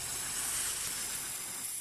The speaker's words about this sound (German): Die schwarze Spraydose. Er langte mit dem Arm in die Höhle und schob die Dose so weit wie er konnte durch den Rachen der Sphinx. Dann hielt er den Atem an und drückte auf das Ventil.